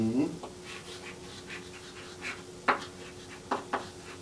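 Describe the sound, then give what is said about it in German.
Faint scratching of a pen writing on paper, heard as a few short, separate strokes over a quiet background. “Dann schreiben wir hier drunter Physis.”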